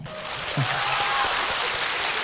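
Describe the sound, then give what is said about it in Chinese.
Audience applause, a dense, even wash of clapping that holds steady at a moderate level for about two seconds. “不用鼓掌，不用你们的虚情假意。”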